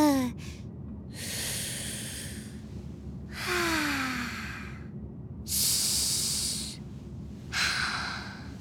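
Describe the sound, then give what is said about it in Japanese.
Deep breathing: a few slow, long, airy breaths in and out, each a broad hissing rush separated by short quiet pauses, with a faint sighing voice tone at the start of some breaths. “ほーら、深呼吸。”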